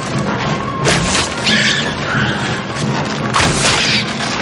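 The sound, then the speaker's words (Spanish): A heavy wooden door cracks and crashes down under battering, with a few loud booming, smashing impacts that stand out from a rough, rumbling din. “Todos esperan en guardia mirando la puerta que poco a poco se resquebraja.”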